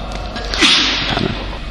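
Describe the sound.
A single sneeze bursts out sharply, a brief breathy blast of noise that swells and fades within a fraction of a second, heard alone without talk.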